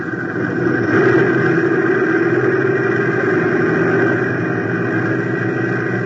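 An overloaded airplane engine runs heavy at full power during takeoff, giving a steady, loud, continuous droning roar with no talk.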